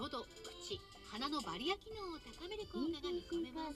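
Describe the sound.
Faint television sound playing in the room: a steady flow of bleating, sheep-like calls mixed with talking, wavering in pitch throughout.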